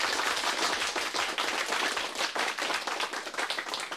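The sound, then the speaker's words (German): Heavy applause in a radio play, a fairly faint but dense wash of clapping with some sharper individual claps, holding steadily for four seconds without any voices. “Heftiger Applaus.”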